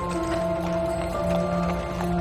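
Hooves of a horse pulling a white wooden carriage clip-clop in a steady, even rhythm, faint against a sustained humming tone that runs underneath.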